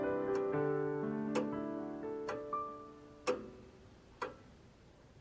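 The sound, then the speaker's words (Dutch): Clocks ticking in a watch shop on the Barteljorisstraat in Haarlem: faint, regular ticks about once a second over soft, sustained musical tones. “De horlogewinkel in de Bartel-Jorisstraat in Haarlem is voor Corrie ten Boom 52 jaar lang een schuilplaats geweest.”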